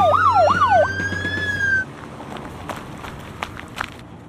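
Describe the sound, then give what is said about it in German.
Sirens of an arriving fire engine and ambulance wail in fast rising and falling sweeps, then hold a high steady tone before cutting off abruptly, leaving a quieter stretch of scattered footsteps and bustle. “Die Feuerwehr kommt. Und der Krankenwagen.”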